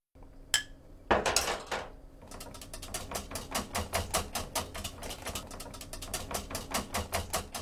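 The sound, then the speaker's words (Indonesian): A whisk beats a honey and milk mixture into beaten eggs in a bowl: many rapid, steady clicking strokes that follow a couple of louder knocks, with no talk. “Setelah itu masukkan campuran itu ke dalam kocokan telur dan aduk rata menggunakan alat pengocok.”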